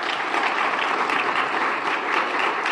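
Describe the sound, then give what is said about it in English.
Audience applause for officers at a ceremony with an honor guard, a steady, full round of clapping from many hands that holds evenly throughout. “let's give our officers a round of applause.”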